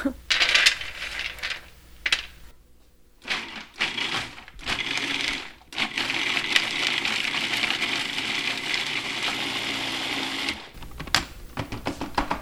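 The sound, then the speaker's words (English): A blender grinding about a quarter cup of almonds for a roasted red pepper sauce, giving a loud, gritty, rattling whir. It runs in several bursts broken by short pauses. “I'm gonna start with about a quarter of a cup of the almonds. It's gonna be really loud.”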